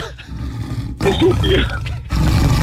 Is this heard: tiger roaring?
yes